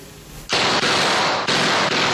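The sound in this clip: Guns firing in a film scene where kids shoot guns loaded with whipped cream: after a brief quiet lead-in, a loud, sustained burst of rapid popping fire with a few short dips in the barrage.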